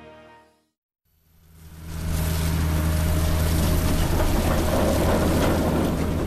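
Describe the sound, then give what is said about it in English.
A potato harvester engine at full throttle on a farm near Swords in North County Dublin swells up from near silence into a loud, steady roar, a broad rushing noise over a low, constant drone. “a potato harvester is going at full throttle on Lar Flynn's farm near Swords in North County Dublin.”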